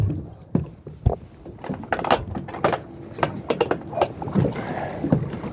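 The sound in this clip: A fishing boat casts off from its mooring in Danish waters, with the mooring hauled aboard: irregular knocks, clunks and creaks of rope and hull, sharp taps scattered among a busy, rattling wash of deck and water noise.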